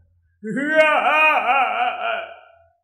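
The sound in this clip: A loud wailing cry rings out through the deep night, one sustained, wavering voiced wail lasting about two seconds that trembles in pitch before fading away.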